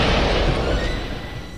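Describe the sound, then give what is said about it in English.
A loud, broad roar as gasoline bursts into flames from a fuel tank punctured in a side-impact car crash test using real gasoline. The sound is a dense, steady rush that fades slightly over under two seconds. “Terrible, at impact, a small hole was punctured in the tank. According to our experts, the pressure of the collision and the crushing of the gas tank forced gasoline to spew from the gas cap. The fuel then erupted into flames when ignited by the impacting”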